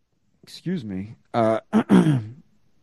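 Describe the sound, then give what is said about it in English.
A person clears their throat in a series of raspy, voiced grunts of uneven length, loud and close, with no other sound around them. “I got a little frog in my throat here as I'm trying to close out the show.”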